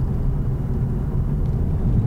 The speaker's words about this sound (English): it doesn't feel savage, this, considering it's 300 horsepower, so it's twice the power.